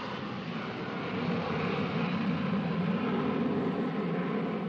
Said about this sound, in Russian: Самолет летит в густых облаках.